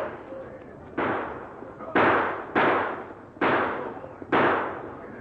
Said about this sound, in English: riding at a gallop past the target and firing six shots.